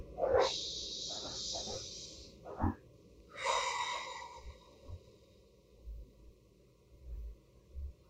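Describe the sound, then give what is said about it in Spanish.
A deep breath drawn in through the nose, then a full exhale through the mouth. Two soft, airy hisses over a faint low rumble, with no talking. “Inhalando por la nariz. Exhalando completamente por la boca.”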